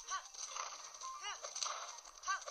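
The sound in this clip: Hoofbeats of a horse being ridden in a video game: a steady, rhythmic clip-clop that runs through the whole clip at moderate loudness.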